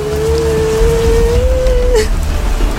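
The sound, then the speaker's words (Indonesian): Steady rain falls while someone walks through it, a loud, even hiss of drops with no breaks, and a long sustained tone runs through much of it. “Ngapain jalan kaki hujan-hujanan?”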